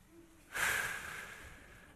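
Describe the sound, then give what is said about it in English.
One slow, deep breath: a soft breathy rush begins suddenly and then continues as a quiet, steady airy sound that fades slightly to the end, with no talk. “why don't we take a deep breath, shall we?”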